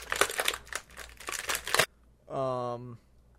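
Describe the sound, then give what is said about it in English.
Plastic packaging being torn open, loud crinkling and crackling in rapid irregular bursts for just under two seconds before the sound stops. “I can't wait to see, like, how your audio file looks after just hearing you tear open the plastic. Oh, it's fine. In fact, I'll make it loud. Here it is again.”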